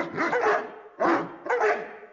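Dogs barking and howling a march tune for a Volkswagen Super Bowl ad teaser, dressed in costumes. Three loud, tonal bursts, the first the longest, with no talk over them.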